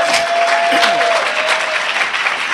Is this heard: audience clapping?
yes